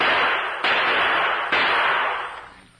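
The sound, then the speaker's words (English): Gunshots from target shooting with a handgun at an outdoor camp: three sharp cracks, spaced irregularly, each leaving a long hissy decay over a constant loud noise bed. “That's good shooting, Drew.”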